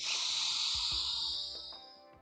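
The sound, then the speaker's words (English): A long, deep breath drawn in through the nose, a steady airy hiss lasting about two seconds that gradually fades toward the end, with faint low bumps underneath. “we're just going to breathe in through our nose, long, deep breaths.”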